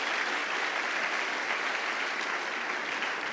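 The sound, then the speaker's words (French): Dense, continuous applause from a church audience acclaiming Jesus during a worship service. The clapping holds loud and steady throughout, with no pauses or build-up. “On acclame Jésus.”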